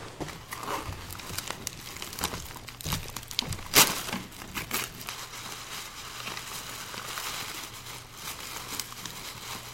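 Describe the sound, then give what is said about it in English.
Wrapping paper tearing and crinkling as a wrapped present is ripped open, with many uneven rips, crackles and rustles, a sharper louder tear near the middle, and no clear talk. “We have one for you to open. Like I said, do not be shy. You can tear right into this thing.”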